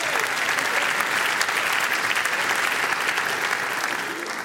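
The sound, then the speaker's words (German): Dense, sustained audience applause welcomes a jury member at a Kleinkunstpreis cabaret award event. The steady wash of clapping stays even throughout and eases slightly at the end. “Großen Applaus für Christoph Sonntag, Jurymitglied.”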